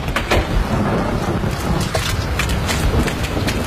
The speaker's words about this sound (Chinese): 这台风的脾气还真不小啊。